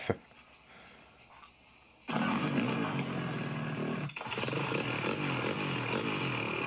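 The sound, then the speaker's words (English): An angle grinder shrieks into life after a sharp click and a short quiet stretch, then cuts through a beer bottle to open it. Its loud, rough, steady whine dips briefly midway before carrying on. “That's how you open a beer. With the grinder.”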